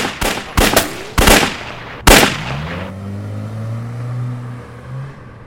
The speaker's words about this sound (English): You know what this is. It's a gun. To blow you to smithereens.